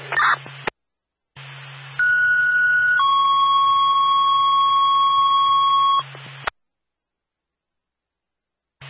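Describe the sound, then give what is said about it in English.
A fire alarm sounds at a headquarters as a loud, steady electronic tone: a higher pitch for about a second, then a slightly lower one held for three seconds. Short bursts of buzzy hum come before and after. “fire alarm from Mission 3, headquarters.”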